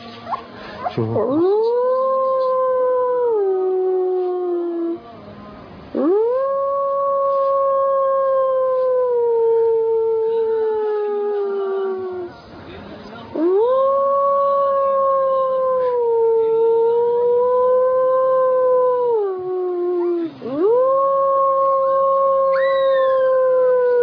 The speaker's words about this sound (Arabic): سبحان الله العظيم، إنسان بيعلم ازاي كيف يعوي بيعلمه ازاي.